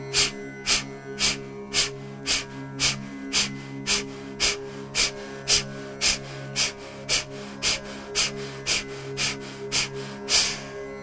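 Many rapid, forceful breaths in a yogic breathing round, sharp airy bursts repeating at an even, quick rhythm for about eleven seconds over a steady sustained tone.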